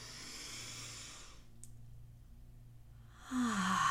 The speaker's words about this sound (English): we're going to breathe in through our nose and we're going to breathe out through our mouth.